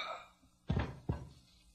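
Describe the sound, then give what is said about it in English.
Two heavy, dull thumps of a pistol-whipping blow in a radio drama, landing about half a second apart over a faint low background hum. “You see, Sailor, why I never turn my back on a girl? As pistol whippers go, I think Millie did that quite well.”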